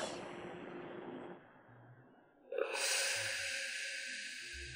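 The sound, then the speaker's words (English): A deep breath drawn and released: an airy rush at the start fades into a quieter lull, then a sharp breathy onset opens into a long, bright, sustained hiss that runs to the end. “I'll take a deep breath.”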